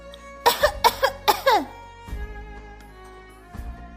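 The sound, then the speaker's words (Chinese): Deliberate, forced coughing: a quick run of about six throaty, voiced coughs packed into roughly a second, followed by a couple of quieter, scattered sounds. “他只好故意咳嗽了几声，”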